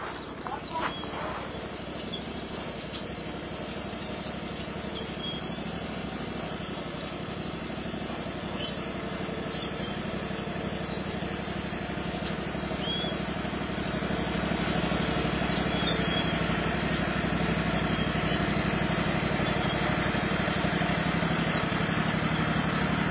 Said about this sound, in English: drive the tractor. This one.